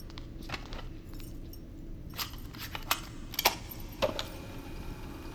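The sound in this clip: A cassette tape being put into a player: a few faint plastic clicks and small rattles over a low steady hiss.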